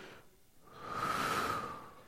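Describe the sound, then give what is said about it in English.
A single deep breath drawn in through the nose, a soft, steady airy rush that swells and then fades, heard alone without talk. “we're going to take two really deep breaths in, okay? Ready? Through the nose. Hold it.”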